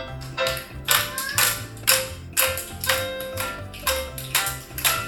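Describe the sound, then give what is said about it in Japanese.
Hand clapping keeps time with a song during a eurhythmics music activity. Many sharp claps fall in a steady beat over quiet music. “手拍子してますね、歌に合わせて。”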